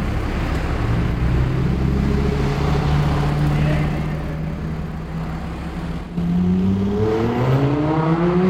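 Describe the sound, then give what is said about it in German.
A white Lamborghini sports car accelerates hard in Hannover, its low engine drone holding steady before a sudden jump in loudness, after which the engine's pitch climbs as it revs. “Was ihr da gehört habt, war ein weißer Lamborghini.”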